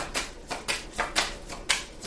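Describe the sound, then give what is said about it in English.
Tarot cards being drawn from a deck produce a few soft, crisp flicks and taps in an uneven rhythm, faint and without voices. “Let me take some more cards right quick.”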